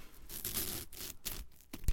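Soft rustling and scuffing of a fabric tablecloth, used instead of paper to wrap a present, come in a quick run of quiet, irregular bursts.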